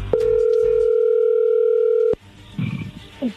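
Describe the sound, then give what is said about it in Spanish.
A telephone tone sounds as a call is dialed: one steady, loud, unbroken tone that lasts about two seconds and then cuts off abruptly, followed by a few faint, low murmuring sounds. “se está marcando, no haga ruido.”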